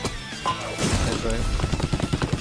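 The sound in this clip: Gunfire from a Splatoon-like video game: a quick volley of punchy, clipped shots, mixed with other game sounds at moderate loudness.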